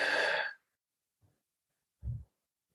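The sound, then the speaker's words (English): Deep breathing during a guided sleep meditation: a long, airy rush of breath, then a tiny puff and a short, low, soft exhale after a pause. It is quiet, with no talking. “Deep breath in through your nose and out through your mouth.”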